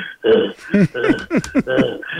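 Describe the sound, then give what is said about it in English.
A voice imitates the heavy, huffing breathing of a tired fighter moving around with his hands up while sparring: a series of short voiced puffs and grunts in an uneven rhythm. “I remember he would just move around with his hands up, and he'd be breathing heavy. He'd be like,”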